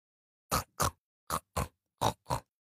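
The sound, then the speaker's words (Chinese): Piglets grunt while eating: six short, gruff grunts in three evenly spaced pairs, each clear and separate with silence between them. “这些小猪最喜欢的事情，就是在泥坑里滚来滚去，在猪窝里拱来拱去，在吃饭的时候哼哼唧唧。”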